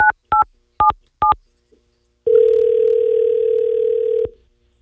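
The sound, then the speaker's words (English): Telephone touch-tone dialing: four short keypad beeps in quick succession, a brief pause, then a single steady tone held for about two seconds before cutting off. “Let's give Rich a call back and give him some exclusive details.”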